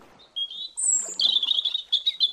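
A bird sings loudly while perched on the edge of a dugout canoe: high whistled notes, then a long sustained tone that gives way to a run of rapid trilled chirps, heard alone.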